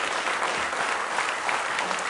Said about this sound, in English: Give him one more big hand clap of praise in the house of the Lord tonight.